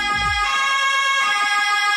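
A Swiss cantonal police siren from Valais sounds loud and continuous. Its bright tone shifts back and forth between two pitches in the pin-pon pattern, with no voices.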